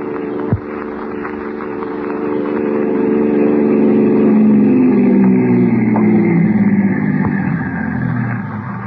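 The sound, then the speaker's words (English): A car engine runs continuously and fairly loud, swelling in the middle and then dropping in pitch as it eases off, with a short knock near the start. “Here's the car.”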